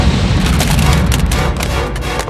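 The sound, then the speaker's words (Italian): A firecracker blows apart a toy soldier with a loud explosion, a dense rumbling boom of broad crackling noise that stays strong for about two seconds. “Accese la miccia e lo fece saltare in mille pezzi.”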